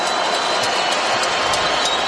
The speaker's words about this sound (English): Knicks chant is drowned out by Go Spurs Go. But the orange and blue contingent, they're cheering their hearts out here for the Knicks in their first finals game since 1999.